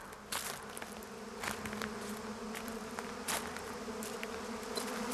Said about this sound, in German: Schau mal, all die Bienen. Komm, wir suchen das Nest.